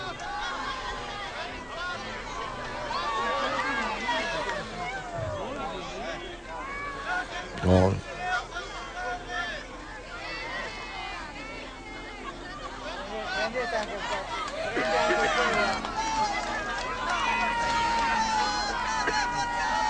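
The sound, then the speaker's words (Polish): A large crowd calls out personal cries to the Pope during a papal visit, a dense hubbub of overlapping voices with individual shouts rising above the steady babble. “Ojcze Święty, popatrz, zobacz, módl się za nami i tak dalej, więc takie są osobiste okrzyki.”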